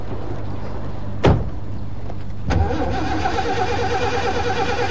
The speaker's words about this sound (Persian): این بعضی موقع ادا در میاره، یکی دوتا استارت بزنی راه میفته.